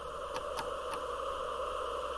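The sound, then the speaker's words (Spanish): Keys pressed on the control panel of a public call booth with a screen and card slot, heard as three faint, quick clicks over a steady low hum. “Saca una tarjeta de la cartera y la introduce en una ranura. Acto seguido pulsa unas teclas.”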